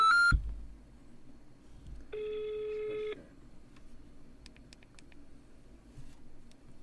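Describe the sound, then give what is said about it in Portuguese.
A telephone number being dialed: electronic tones, with a short tone at the start, a steady multi-tone beep lasting about a second, then a few quick, faint keypad beeps over a low background hum. “Não, deixa eu ligar pra ela.”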